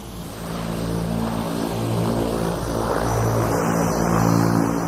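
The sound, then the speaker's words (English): A Cessna propeller plane flying past gives a steady, droning engine roar with a low, buzzing harmonic hum that holds through the whole stretch, loud and alone with no voices. “This kind of sounds like a Cessna. I used to fly Cessnas back a long time ago. That's what you're hearing as the plane is going by.”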